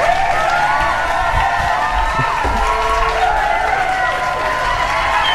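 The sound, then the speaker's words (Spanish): Studio audience applause and cheering erupt at a live program, a loud, dense and continuous wash of clapping mixed with shouting crowd voices that holds steady throughout. “¡Vamos! Qué bárbaro, ¿eh? El auditorio explota, ¿viste? explota.”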